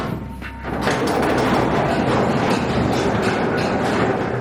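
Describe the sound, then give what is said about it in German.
An old mine railway locomotive pulling a few wagons, a dense rumbling and rattling roar that swells up after a quieter opening and then holds loud and steady. “Das ist die alte Grubenbahn, eine alte Lok mit einigen Waggons hinten dran.”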